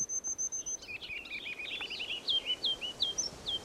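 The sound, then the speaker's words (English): A ruby-crowned kinglet sings a faint, high song that opens with a thin, buzzy trill, then runs into a rhythmic string of bright, repeated chirping notes over a low background hiss. “Here's a ruby crown kinglet.”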